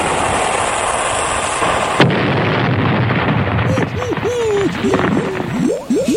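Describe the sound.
A ship firing a cannon or torpedo: one sharp blast over steady noise, then a sustained rumbling roar with a run of short, high whistling tones.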